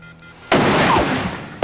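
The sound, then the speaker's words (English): Gunshots fired inside a dark house: a sudden loud blast with a long, noisy decay, then a second sharp shot right at the end. “He ducks as shots are fired.”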